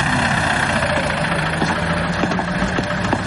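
A taxi engine as the cab drives off, a steady mid-pitched rumble with a slight knocking vibration, continuous and alone with no voices.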